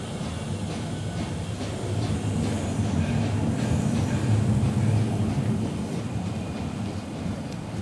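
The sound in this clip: A train departs from a station platform with a steady low rumble and wheel noise that swells gradually in the middle and then eases slightly, continuous and fairly loud, with no voices.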